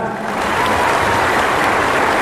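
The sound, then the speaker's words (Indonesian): Applause from the audience at a foundation event celebrating its success: dense, continuous clapping that stays loud and even from start to finish. “Kita tepuk tangan untuk suksesnya acara.”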